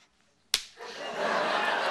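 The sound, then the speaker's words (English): A woman slaps a man across the face on a couch in a sitcom scene: one sharp, loud smack, followed by a sustained, swelling wash of broad noise. “She steps back on the couch and slaps him again.”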